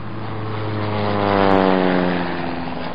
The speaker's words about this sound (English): that plane you hear up ahead is probably Warden Matua